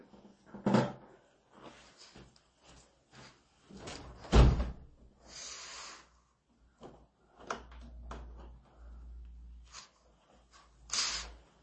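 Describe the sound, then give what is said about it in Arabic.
A window is shut behind a seated speaker with a few sharp knocking thuds, near the start, the middle and the end, amid quieter handling clatter and silent gaps. “اسمحوا لي يعني حتى لا أتضرر أغلق الشباك خلفي.”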